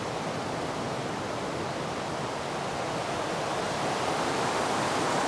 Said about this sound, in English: I'm just pondering how the sound of this particular river might have affected you compared to, say, if I'd have taken you to a slow, gentle stream.